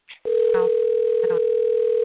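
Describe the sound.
A telephone dial tone after a call is cut off: one steady, mid-pitched continuous tone starts after a brief opening sound and holds unchanged to the end, with faint voice fragments underneath.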